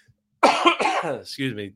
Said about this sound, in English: It's a coughing fest here, yeah. Sorry, people. We apologize.